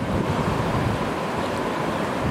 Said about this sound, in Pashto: ابھی ہم جھیل کو انجوائے کر رہے ہیں جی آبشارے